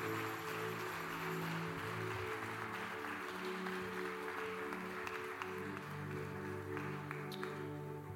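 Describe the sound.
A church audience applauds after a prayer. The clapping is fairly soft and steady and runs beneath sustained, held musical tones throughout.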